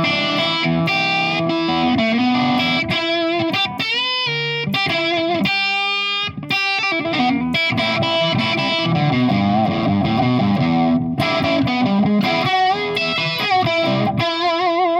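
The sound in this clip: Overdriven electric guitar played on a stock 1962-style custom shop SG: a loud, continuous run of distorted chords and ringing notes, with one brief dip in the middle before the playing resumes.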